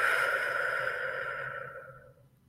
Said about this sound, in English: Take a deep breath again. And exhale.